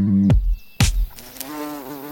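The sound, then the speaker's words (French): Bumblebees buzzing, a droning, harmonic-rich hum that wavers slightly in pitch. Two brief loud bursts come before it. “Voici d'abord, dit Maeterlinck, les plus proches parents de nos abeilles domestiques, les bourdons, hirsutes et trapus, parfois minuscules, presque toujours énormes”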